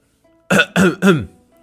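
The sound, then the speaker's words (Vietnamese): A man gives a single rough cough, clearing his throat in three quick, loud bursts after a near-silent start. “Hắn nhìn chung quanh thấy không có người, vội ho một tiếng và nói.”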